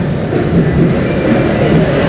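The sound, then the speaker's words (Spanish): A train arriving from Cartago at Atlántico station gives a loud, continuous rumble of rolling wheels and carriages, steady throughout with no clear breaks. “Acaba de llegar el tren desde Cartago. Este es el primer tren que se va a dirigir hacia el andén de La Salle.”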